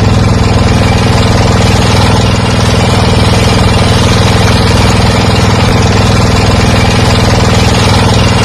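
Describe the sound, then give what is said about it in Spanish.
Boat engine running on a river trip in Laos, a loud, steady, throbbing drone with a low rumble and constant pulsing texture, unbroken throughout with no voices. “El sonido es el motor de una barca que nos puede llevar hasta Bang Bien”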